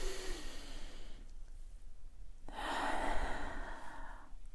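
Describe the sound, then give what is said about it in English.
Deep breaths drawn in through the nose while smelling mint tea come as two long, soft, airy hissing breaths separated by a quiet pause, with no talk. “So I've opened up my 3 mint tea here, and I'm going to hold it up to my nose and take a big breath in.”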